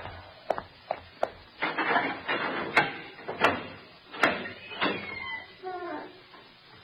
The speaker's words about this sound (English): Open the door and let me in.